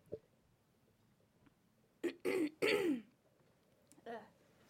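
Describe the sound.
Someone clears their throat of phlegm left by food, making a few short, harsh rasping bursts in quick succession, followed by a fainter one.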